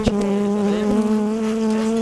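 Honeybees buzz steadily in a weak beehive whose cluster covers only three or four frames, a sustained mid-low droning hum with a few sharp taps near the start.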